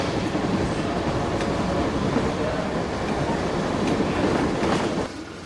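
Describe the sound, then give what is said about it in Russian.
A military train of flatcars loaded with soldiers, tanks and guns rolls past as a dense, steady rushing rumble that fills the whole stretch, easing slightly in loudness just before the end. “внимательно смотрит на проходящий мимо состав. Мимо него катится платформа с солдатами, танками и пушками.”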